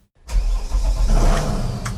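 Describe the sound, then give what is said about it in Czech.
A river police patrol boat's engine starts on the Slapy reservoir after a moment of silence, then settles into a loud, steady low rumble that runs to the end. “teď tedy vyjíždíme na člunu”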